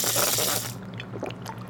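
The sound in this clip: Milk squirts from a cow's teat during hand milking. A loud, hissing spray dominates the first part, then softer wet squirts and drips follow.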